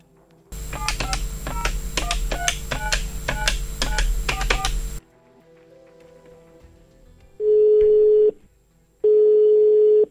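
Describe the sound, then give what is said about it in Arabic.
Telephone call being placed: a rapid run of dialing tones over a steady buzzing hum, then a short quieter gap and two loud, steady ringing tones separated by a brief pause. “رح نتصل بيرزقو ونعرف منه أكثر”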